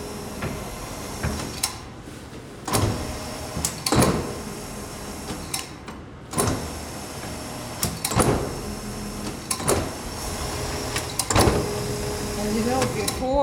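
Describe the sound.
Puff pastry dough runs through an electric dough sheeting machine, giving a steady mechanical whir and rumble broken by recurring clunks every couple of seconds.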